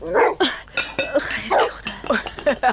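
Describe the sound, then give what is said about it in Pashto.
A dog barks by a tent at the foot of a mountain, letting out a quick series of sharp, fairly loud barks. “دا د تنګ د کېږدې سپی چا ته غپېږي؟”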